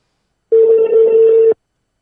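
Ringback tone on an outgoing telephone call: one steady, low electronic tone lasts about a second, loud and alone, with silence before and after it.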